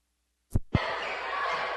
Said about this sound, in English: Gets around the right wing, looks for room, dribbles it back out.